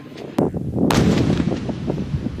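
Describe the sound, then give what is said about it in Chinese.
A howitzer unit fires in direct-fire mode from a reserve position at enemy targets: two sharp, heavy booms over a continuous low rumble of gunfire and echo, loud throughout. “已转移至预备阵地的榴弹炮分队采取直瞄射击方式，对敌目标再次发动打击。”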